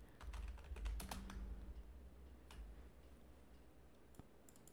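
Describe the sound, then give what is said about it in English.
Quick, faint clicking of a computer keyboard as an answer is typed during a trivia game: a dense burst of key taps followed by sparser, lighter presses. “I'll type in The Needle.”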